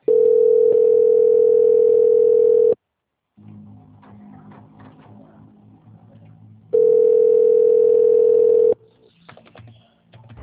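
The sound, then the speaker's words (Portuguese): Steady telephone tone plays while a call is being transferred: two long, unbroken tones separated by a pause of faint low background noise. “Só um minuto, por favor, que eu vou transferir a sua ligação. Ok, obrigada. Obrigada, senhora. Só um minuto. Transferência.”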